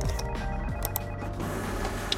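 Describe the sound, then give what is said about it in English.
A loud office printer runs with a continuous mechanical whir and hum, steady throughout with small clicks and rattles over the top. “Liam was so caught up in the moment that he had completely forgotten about the problems with that damn printer. But it was too late. This time it was much louder than before”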